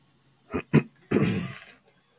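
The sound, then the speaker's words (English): Throat clearing into a microphone: two short, sharp rasping bursts followed by a longer, rougher rumbling one, alone with no talk. “I don't know why I clear my throat in the dang microphone, but I do.”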